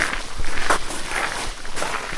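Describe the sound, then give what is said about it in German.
Footsteps of children and a goat walking deeper into a forest, an irregular run of soft steps over rustling, noisy ground at a fairly even loudness, with no talk. “Die Kinder und die Ziege gehen gemeinsam tiefer in den Wald.”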